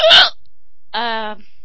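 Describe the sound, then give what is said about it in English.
Hiccups from a person who has had them for about 45 minutes: a loud, breathy hiccup burst, then silence, then a brief voiced hiccup with a tonal catch. “Which is how long you've had the hiccups for. So by now it's been about 45 minutes.”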